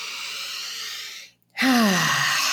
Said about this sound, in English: Big breath in.